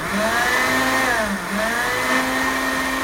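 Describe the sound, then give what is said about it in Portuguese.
A blender whirs as it mixes cashew nuts with water. Its loud motor whine rises and dips in pitch as the contents churn. “2 xícaras de água aqui e ponho no liquidificador e vou bater. Bate, bate, bate bastante, viu?”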